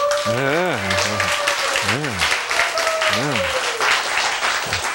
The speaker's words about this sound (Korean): 그거 박수 한번 보냅시다.